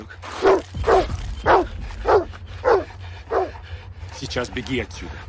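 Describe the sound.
A guard's dog barks after being let loose during a chase: about six loud, evenly spaced barks, then a quicker run of softer yips over a low steady hum.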